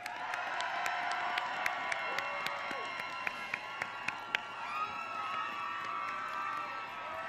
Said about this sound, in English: Let's hear a hand for our leaders.